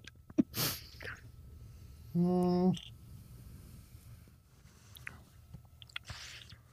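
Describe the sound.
Chewing and biting into a sour fruit, with a few soft wet clicks and crunches spread out over several seconds and a short, steady groaning vocal sound in the middle.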